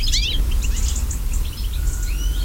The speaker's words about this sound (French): Si on prend un autre oiseau qui est commun, le chardonneret élégant,